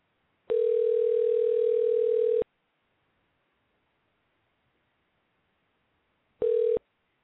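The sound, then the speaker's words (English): A telephone dial tone heard while calling back a dropped caller: a steady, mid-pitched tone holds for about two seconds and cuts off, then after a long silence a second, much shorter burst of the same tone follows. “We've dropped the call. The call dropped. Hold on just a moment. I think something cut us off, but hold on. Let's call Leslie back.”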